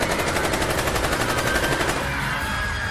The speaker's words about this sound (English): We've taken heavy fire, shots fired.